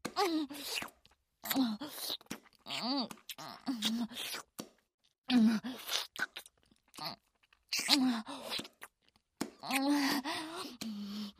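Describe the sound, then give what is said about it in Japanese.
Wet, deep kissing sounds, with moist smacking and slurping mouth noises in many short bursts, mixed with a moaning, murmuring voice and brief gaps of silence between them. “口開けろ、ベロチューすんぞ。ベロチューって言ってんだろうがよ、この。”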